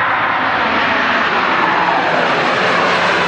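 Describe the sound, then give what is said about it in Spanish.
A propeller airplane's engine roars loudly and steadily as it takes off and flies. The broad, continuous drone holds an even level throughout, with no voices. “la previsión y yo hemos construido un avión y en cuanto termine de decirles esto, volaremos hasta la isla más cercana”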